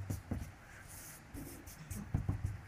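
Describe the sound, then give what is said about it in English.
Faint scratching of a pen drawing stick figures, a few short strokes in brief bursts, very quiet and with no voices. “I'm getting bad at drawing stick figures.”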